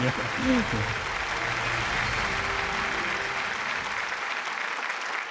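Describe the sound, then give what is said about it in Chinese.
Warm applause welcomes a professor onto the stage, a sustained, even wash of clapping from an audience that holds for several seconds and then thins, with a voice heard briefly at the start. “好，让我们用热烈的掌声有请张永乐教授。”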